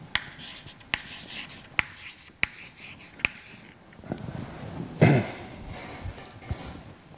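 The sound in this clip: Writing an equation on a board during a physics lecture: several sharp taps at an even pace, followed by softer scratching strokes across the surface.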